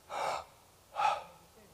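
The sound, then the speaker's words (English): A man's voice imitates a last dying breath with a sharp, breathy gasp. Two short airy bursts are separated by a brief quiet gap, fairly faint and without words. “in just a moment, one breath. So it would be like this,”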